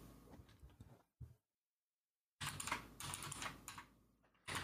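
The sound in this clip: Someone types a message on a computer keyboard, producing quiet, rapid clicking in two busy stretches broken by a short silence.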